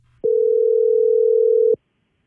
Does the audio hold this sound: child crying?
no